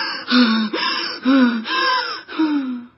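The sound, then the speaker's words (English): Out-of-breath panting after exercise, acted out by a voice: several heavy gasping breaths, each carrying a whiny tone that falls in pitch, in a steady rhythm, loud and alone. “When I do exercise, I get out of breath and then I sound like this.”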